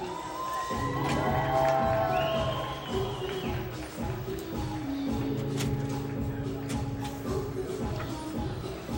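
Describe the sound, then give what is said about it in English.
Crowd noise fills a baseball ballpark during a game: a continuous murmur of many voices with scattered shouts, whoops and cheers. A few nearby voices talk over the din. “And if I heard correctly that the godfather of him is here, congratulations. Welcome to the ballpark today.”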